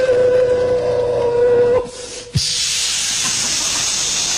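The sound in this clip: A comic performer's voice imitates a train: a held whistle-like tone gives way to a sharp burst, then a loud, continuous breathy hiss like escaping steam.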